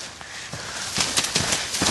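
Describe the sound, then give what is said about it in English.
Running footsteps of Harry Potter as he races through thick, waving reeds: a quick run of crisp, crunching steps in a steady rhythm, fairly even in loudness, with no voices. “He tries to look through the waving reeds. Harry runs.”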